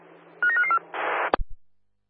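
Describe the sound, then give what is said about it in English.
A telephone dialing a call: a quick run of about four short, bright keypad tones, then a brief burst of hiss and a sharp click with a low thump, no voices. “you want to give us a quick call? It's dialing now.”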